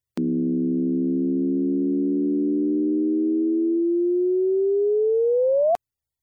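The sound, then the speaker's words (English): Gravitational-wave chirp from two colliding black holes, rendered as a sustained electronic tone: a steady buzzy tone with stacked harmonics thins to one pure tone that climbs in pitch, then cuts off sharply. No voices. “The noise is that of a gravitational wave, allowing scientists for the first time to begin to further study black holes.”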